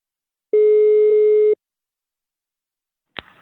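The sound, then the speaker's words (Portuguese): Telephone line tone on an outgoing call: one steady mid-pitched beep lasting about a second, followed by silence and a sharp click near the end. “Vou ligar agora pra Aparecida.”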